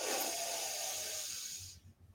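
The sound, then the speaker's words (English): A slow, steady breath taken during a guided breathing exercise: one long, soft, airy hiss that holds for nearly two seconds before trailing off into quiet. “Join me. Breathe in and out. Again, breathe in”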